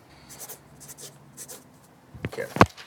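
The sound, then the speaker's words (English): Pen scratching on paper as a game show contestant writes down an answer, soft, faint strokes at first, then a couple of sharper, louder taps near the end. “Write it down, son. I did.”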